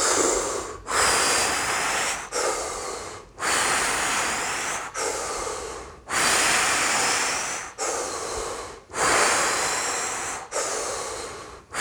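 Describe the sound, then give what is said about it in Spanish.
Deep, forceful breathing during a guided breathing exercise, with long hissing exhales emptying the lungs. They alternate with inhales in a steady repeating rhythm of many loud, breathy cycles, each separated by a brief pause. “Y exhala todo el aire que puedas.”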